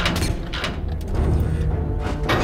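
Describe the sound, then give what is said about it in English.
Sci-fi mechanical effect of two robot hatches opening, loud bursts of hissing, whooshing noise with thuds, dense and continuous across the short span. “2 hatches open and jets fire out of its back.”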